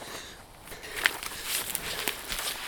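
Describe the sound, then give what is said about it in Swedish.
Footsteps walk back and forth through a small forest grove, making many soft crunching steps in an irregular rhythm, faint against a steady noisy background. “Jag går bara fram och tillbaka här i den här lilla skogsdungen.”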